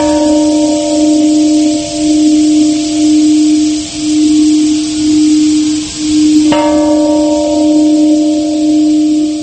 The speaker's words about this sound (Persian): محفل با تنین صدای زنگ صلح به ساعت 8:15 صبح